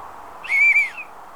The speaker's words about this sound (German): Vielleicht hört mich jemand, wenn ich pfeife.